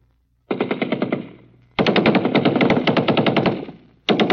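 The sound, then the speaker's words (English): Machine gun fire on an army infiltration training course, with live rounds fired overhead: loud, rapid and evenly spaced shots in three bursts separated by brief pauses, the last burst cut off at the end, with no voices. “live bullets from machine guns whizzing over your head”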